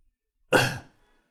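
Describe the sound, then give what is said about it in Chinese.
A single light cough, a short, breathy burst lasting under half a second with quiet before and after. “烈湖轻咳了一声，打破凝滞的沉静。”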